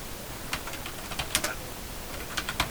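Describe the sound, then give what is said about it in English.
Faint typing on a computer keyboard while writing in Word Online: a few scattered, sharp key clicks in short bursts, separated by quiet gaps. “However, I'm just going to type,”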